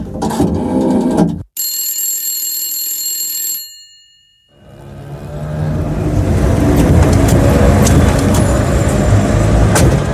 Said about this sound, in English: the phone